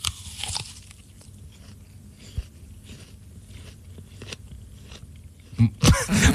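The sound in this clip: Crunchy bites of an apple being eaten: soft, irregular crunching and chewing continues throughout, then a few louder, sharper crunches burst out near the end.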